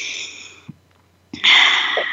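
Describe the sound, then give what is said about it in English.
People taking a breath together: two airy rushes of breath, a steady hiss first and then a louder, fuller one after a short near-silent pause, with soft low thumps between them. “Let's take a breath together again.”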